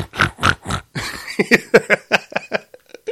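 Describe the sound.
A human voice imitates a pig oinking with many short, nasal grunts in a quick, uneven series, some louder and some softer, heard alone without talk.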